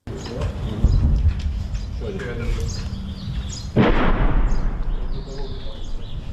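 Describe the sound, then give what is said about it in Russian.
Russian artillery fire: a single sharp, heavy boom lands partway through and trails off into a rolling rumble over a steady low background roar. “Российская артиллерия дает так называемую ответку.”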